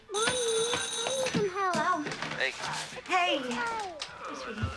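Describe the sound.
A telephone rings in a family home on a snowy day. A steady, bright bell-like tone sounds at the start, then people talk over and after it.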